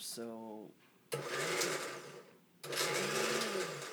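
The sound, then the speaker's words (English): A blender blends a drink in two long, loud bursts of steady grinding motor whir, separated by a brief pause. A short tonal sound comes just before the first burst. “we're gonna blend that up. I'm gonna have to put the lid on, don't forget that.”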